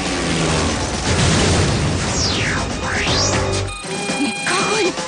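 A bomb blast in a film battle scene, dropped from a warplane onto a giant robot: a loud, dense roar with sweeping whistle-like tones over it, cutting off abruptly near the end into a quieter tail.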